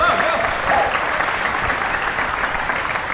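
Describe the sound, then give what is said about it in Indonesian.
Applause from an audience at a theatre performance: a dense, even wash of clapping that holds steady for about three seconds without a pause. “Novi Budianto, tepuk tangan.”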